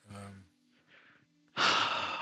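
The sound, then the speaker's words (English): Heavy breathing, voiced by a person imitating a creature during a tabletop role-playing game: a short voiced breath, a faint pause, then a loud, rasping, breathy exhale that carries to the end. “heavy breathing. Oh, it's breathing. It's alive.”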